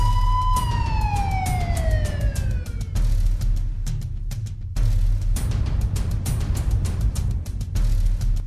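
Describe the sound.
A police car siren switches on as the car accelerates, a single loud wail sliding steadily downward in pitch, followed by a sustained rushing roar over a low rumble.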